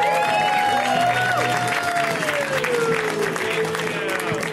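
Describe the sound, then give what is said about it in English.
Audience applause and cheering at a comedy show as a comedian is introduced. The clapping is loud and continuous throughout, with a sustained tone running over it. “So let's hear it right now for the hilarious Grant Pardee, guys. Give it up for Grant. Come on.”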